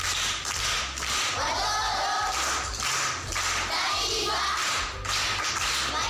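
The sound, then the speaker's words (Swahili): A class at a primary school applauds a pupil, a loud sustained burst of clapping that swells and dips in a pulsing rhythm over several seconds. “Makofi kwa mjomba.”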